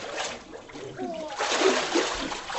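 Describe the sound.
Water splashes and sloshes as a person is immersed during a baptism, a churning wash that surges louder through the second half.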